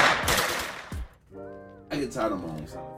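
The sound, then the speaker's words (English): Rapid machine-gun-style gunshot sound effects, played as a joke about Detroit, come in two dense clusters separated by a brief sustained tone. “Yeah, just do the gunshots. It's Detroit. It'd be the same thing. Just do the gunshots.”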